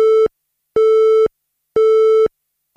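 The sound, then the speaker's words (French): A telephone busy tone sounds after a call cuts off on a poor connection: loud, steady beeps of about half a second, each followed by an equal silence, in an even repeating rhythm with no other sound. “Allô ? Ah zut, ça a coupé.”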